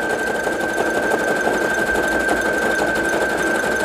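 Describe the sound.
A sewing machine runs steadily as it stitches closed the last stretch of a fabric bookmark, giving a loud, continuous mechanical whir with a fast, even motor rhythm and no talking.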